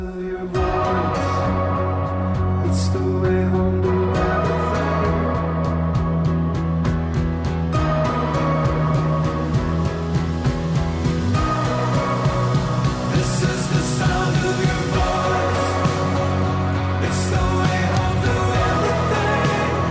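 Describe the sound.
An album track plays: full-band music with a steady, driving beat and layered sustained instruments, continuous and evenly loud, its texture shifting in sections.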